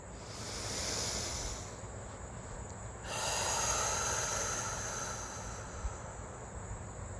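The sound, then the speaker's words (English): Slow, deep breaths heard as long airy rushes of breath noise, with a softer first swell and a stronger one starting midway. The breaths are steady and fairly loud, with no talk. “Let's take a couple of deep breaths to begin our time with our Creator.”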